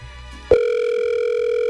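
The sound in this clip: A telephone tone cuts in abruptly after a soft low hum, then holds as a steady, loud electronic buzz-like note without a break to the end.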